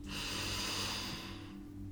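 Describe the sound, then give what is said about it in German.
A deep, deliberate breath drawn in through the nose during a guided relaxation exercise: a strong, airy inhale lasting about a second and a half before fading, with a brief soft breath sound at the very end. “atme hier noch mal ganz bewusst tief durch deine Nase ein”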